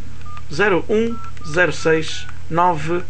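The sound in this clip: Short keypad beeps sound as a phone number is punched in on a telephone, a few brief tones partly buried under a voice talking.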